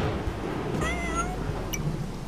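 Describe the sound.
A cat meows in a video game where players control a cat or pug. The short, tonal cry sits over a steady, noisy background, with no voices.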